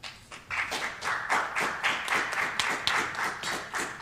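Applause welcoming guests to a book event at the Free Library in Philadelphia: a modest gathering clapping, with many separate, crisp claps standing out in a loose, fairly regular patter rather than a dense roar.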